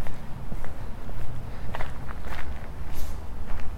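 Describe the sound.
Footsteps of a person walking outdoors on a night-time stroll, a steady series of soft, even paces that tap out a regular rhythm over a constant low background noise.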